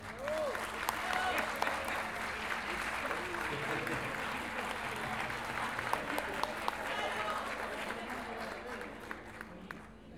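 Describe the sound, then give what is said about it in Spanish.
An audience applauds at a payador folk-verse event in Lo Barnechea with dense, continuous clapping that holds at a fairly even level for about ten seconds, with voices mixed in. “Un aplauso a los que estuvieron recién.”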